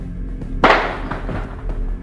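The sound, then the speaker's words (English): A single sharp gunshot crack from a shooting at the University of Texas clock tower, with bullets ricocheting off the top of the tower. The crack decays into a ringing tail, followed by a few faint, dull knocks. “Ricochet bullets bouncing off the top of the tower. Piece of the tower falling now.”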